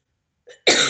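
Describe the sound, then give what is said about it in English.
A single harsh cough bursts out loudly near the end, preceded by a brief, faint throat sound. “excuse me, I am coughing this morning”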